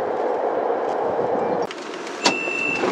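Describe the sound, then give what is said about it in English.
Beijing Subway Line 10 train arriving at Hujialou station: a steady rumble that abruptly lessens past midway, followed by a sharp click and a thin, sustained high tone. “呼家楼站到了。 We are arriving at 呼家楼 station. 欢迎乘坐地铁十号线列车，”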